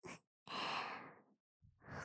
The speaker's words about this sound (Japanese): お耳の奥の方が気持ちいいんですね。いいですよ。それなら、いっぱいふうふうしてあげる。